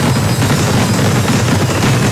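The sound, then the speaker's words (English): Fireworks exploding in a loud, dense barrage of rapid crackling bursts that run without pause through the whole clip, sounding much like gunfire, with no voices. “3, 2, 1. Big Thunder Fireworks.”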